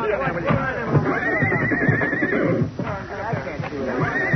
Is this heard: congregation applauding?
no

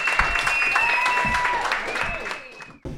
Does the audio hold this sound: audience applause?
yes

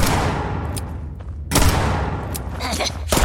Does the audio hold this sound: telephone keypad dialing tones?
no

